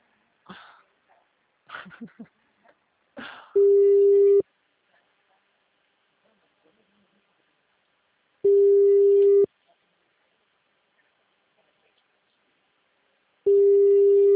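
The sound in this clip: A telephone tone plays during an outgoing call: three long, steady, low tones with long silent gaps between them, after a few brief vocal noises at the start.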